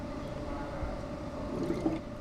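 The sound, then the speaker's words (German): Wine must bubbling as natural yeasts ferment it in fermentation tanks, a faint, continuous low gurgle with a few slightly louder pops near the end. “Der Most wird in die Gärtanks gepumpt. Dann kommen natürliche Hefen ins Spiel. Das Blubbern wird von der Umwandlung von Zucker zu Alkohol verursacht.”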